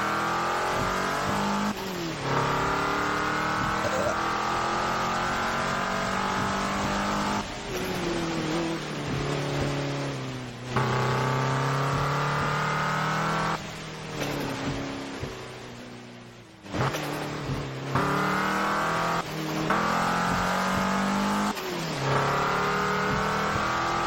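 Race car engine in a video game, revving hard and rising in pitch through repeated gear shifts. Brief drops mark each shift, and the roar stays loud and continuous throughout without voices.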